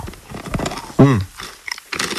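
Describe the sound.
Crunching on small dark chocolate snacks with caramelized almonds and puffed rice: a few crisp bites and chewing crunches, with a short voiced murmur in between.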